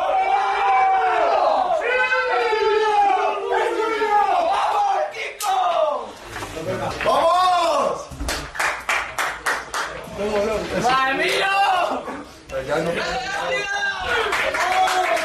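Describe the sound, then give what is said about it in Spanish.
Real Madrid players celebrate in their dressing room after reaching the Champions League final, with loud group chanting and shouting, bursts of rhythmic clapping in the middle, and voices swelling and dipping throughout. “Así suena el vestuario del Real Madrid después de meterse en la tercera final de Champions consecutiva, la cuarta en 5 años.”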